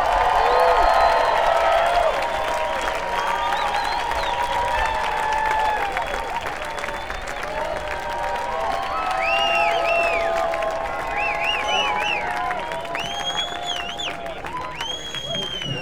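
Festival audience applause and cheering welcomes the Carolina Chocolate Drops at Telluride, a dense, steady wash of clapping with scattered whoops and cheers rising over it throughout.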